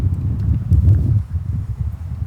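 Wind buffeting a microphone outdoors on a windy day, a heavy low rumble with gusty swells that is strongest in the first second and eases a little afterward.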